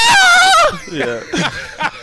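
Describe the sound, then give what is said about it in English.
A man's voice imitates his own high-pitched scream from being poked in the eye during a basketball game, a sustained shrill wail that breaks off into laughter. “I got poked by Chauncey Billups in the eye and screamed like a girl.”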